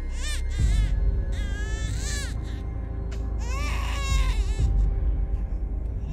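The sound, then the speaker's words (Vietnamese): A red-faced newborn baby cries at night in repeated loud, wailing bursts over a low rumble, each cry rising and breaking into shrill, strained sobs. No speech is heard. “nó mở trừng mắt, nó cất lên tiếng khóc choe choe, tiếng khóc ghê rợn vang lên trong đêm”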